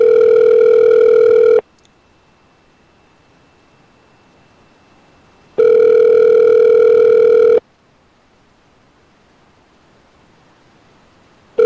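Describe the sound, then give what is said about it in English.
Ringback tone of an outgoing phone call: two long, steady electronic tone bursts of about two seconds each, separated by roughly four seconds of near silence, with a third burst just starting at the end. “Answer the phone”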